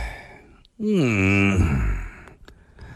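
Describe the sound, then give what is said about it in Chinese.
A drawn-out voiced yawn from a hunchbacked shopkeeper stretching in his empty little shop, performed by a narrator as one long, tonal, open-mouthed sound lasting about a second and a half, with quiet noise before and after. “孙驼子长长的抻了个懒腰，打了个哈欠”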